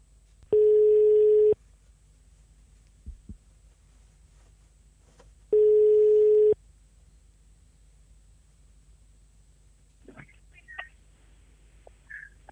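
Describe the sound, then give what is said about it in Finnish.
Telephone ringing tone on an outgoing call to Thailand: two steady, evenly pitched one-second tones about five seconds apart over a quiet line, followed near the end by faint clicks and rustle. “Otetaan tähän loppuun nyt se kauan odotettu ja paljon mainostettu puhelu Taimaaseen ja Sami Välimäelle”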